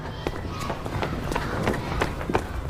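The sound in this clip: Running footsteps on an outdoor path, many quick, evenly spaced footfalls pounding through a dense background rush.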